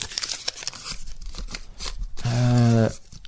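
Paper entries for a prize draw are stirred around, giving crinkly rustling and scratchy brushing in irregular bursts, then a short voiced sound near the end.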